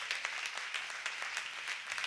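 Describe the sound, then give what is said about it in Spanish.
Applause from an audience at a church service, a dense, steady wash of many hands clapping, fairly faint throughout with no pauses. “Dale un fuerte aplauso.”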